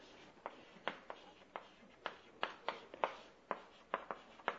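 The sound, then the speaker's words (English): Faint scratching of a name being written down, with many short pen strokes in an uneven rhythm and soft hiss between them. “I'll write his name down.”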